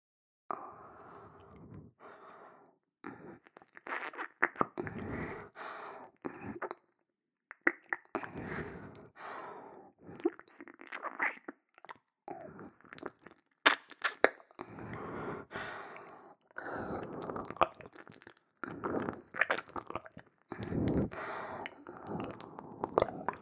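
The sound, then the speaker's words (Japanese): Close-up ear licking in an ASMR recording: wet, squishy licks and mouth sounds come in many irregular bursts separated by brief silent pauses, with soft breaths and no talking. “では、密着耳舐めさせていただきます。”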